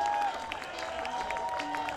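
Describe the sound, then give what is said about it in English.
Audience applause for a guitarist at a live music show, a steady wash of clapping and crowd noise that fills the short clip at an even level. “One more big round of applause.”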